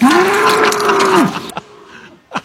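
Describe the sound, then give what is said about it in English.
A bull moos in one long, loud, low call lasting over a second, its pitch dipping at the end, followed by a couple of short, fainter sounds. “We don't have a cow. We have a bull.”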